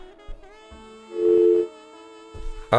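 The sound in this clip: A telephone line tone after a dropped call into a studio phone-in: a single steady, loud beep of about half a second, with a man speaking briefly before it and faint line noise around it.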